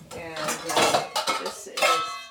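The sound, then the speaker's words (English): A bowl is taken out in a kitchen while fruit is prepared for jelly, making a few clattering clinks and knocks of dishes and cutlery in quick, uneven succession. “I'm going to get a bowl.”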